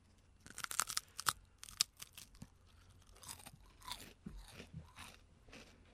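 Bites and chewing of a crisp, cream-filled biscuit made of thin baked wafers. Many sharp, crackly crunches come in quick bursts, then softer, irregular chewing crunches. All fairly quiet, with no voices.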